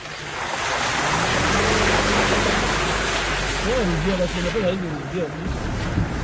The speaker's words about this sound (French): Voilà, là, on n'est plus tout à fait sur terre, là, on est dans l'eau. On est dans un passage particulièrement difficile.